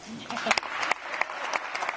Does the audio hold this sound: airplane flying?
no